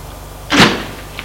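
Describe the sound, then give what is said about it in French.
A door being opened: one brief, fairly loud rush of noise that swells and fades within about a quarter second, followed by a faint click, with no voices. “Il ouvre la porte.”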